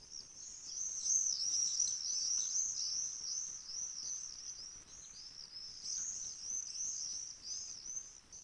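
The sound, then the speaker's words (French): Common swifts give their song: many shrill, high-pitched screaming trills, repeated in quick overlapping bursts. The calls are fairly faint and continue throughout, with no talk. “nous allons tout de suite écouter le chant de ce martinet noir”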